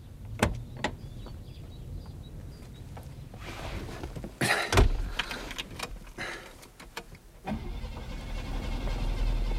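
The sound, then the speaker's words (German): A crash-damaged car with a broken fender and smashed headlight, its engine apparently flooded, being cranked: a few clicks and clunks, a loud burst of cranking midway, then a low steady rumble that fills the end. “Probieren Sie doch, ob der Motor noch läuft.”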